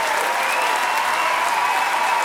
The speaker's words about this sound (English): Pretty much by the time that applause ended